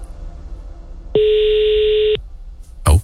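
A telephone ringback tone sounds while a call is placed to a caller: a single steady, mid-pitched tone lasting about a second, followed after a pause by a short dull thud.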